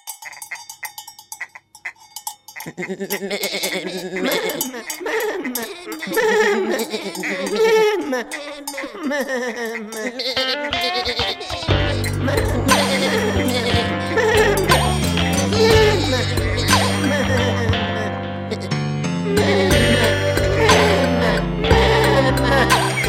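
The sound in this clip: Goats and sheep bleating in wavering, quavering cries, followed by a louder stretch in which steady clanking cowbell tones sound alongside the animals and continue to the end.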